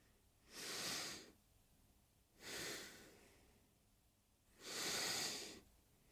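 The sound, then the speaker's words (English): Three deep, airy breaths from belly to chest, each a slow, swelling rush of air lasting under a second, separated by quiet pauses of about a second or more, with no talking. “So let's take that belly to the chest breath. If there's any tension, do it again until there's no tension.”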